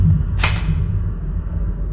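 A single shot from a Mach M4 assault rifle cracks sharply and then rings off in a fading tail over a steady low hum.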